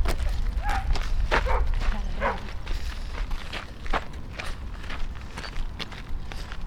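People walk along a bumpy road, their many soft, uneven footsteps crunching and scuffing at an irregular pace, faint and without talk.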